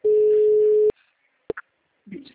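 A telephone busy tone sounds after a call is hung up: one steady, flat, mid-pitched tone holds for almost a second, then cuts off and is followed by a couple of sharp clicks.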